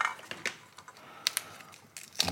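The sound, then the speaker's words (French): Crisp snapping and clicking as fresh pea pods are split open by hand. A few sharp pops come at irregular intervals over faint rustling, with no talk. “j'écosse mes petits pois. C'est assez simple.”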